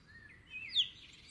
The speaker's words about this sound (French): Mais quel animal fait ce bruit? C'est le poussin qui piaille.